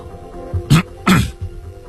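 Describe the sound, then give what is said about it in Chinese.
Throat clearing by a police inspector in a spoken story, two short rough bursts close together, with low rasping weight under a faint steady background hum. “萨姆巡官清清喉咙。”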